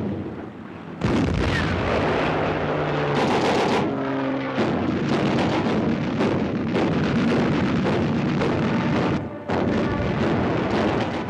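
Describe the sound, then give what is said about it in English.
Naval guns fire from a ship in an Arctic convoy bound for North Russia, heavy booming blasts merging into a loud, continuous roar with wind buffeting, dropping away briefly near the start and again late on. “As the convoy sails, sky is filled with explosions, aircraft fly low, shells are loaded into the guns on board.”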